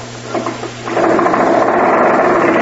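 An early flying machine's small engine, its carburetor just cleaned, is cranked: a few sputtering pulses over a low hum, then it catches and settles into a steady, continuous buzzing drone.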